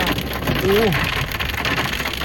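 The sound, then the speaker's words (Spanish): Heavy rain pouring down in a city's metropolitan area, a dense, steady roaring hiss throughout, with a brief voice heard over it. “Y está lloviendo durísimo.”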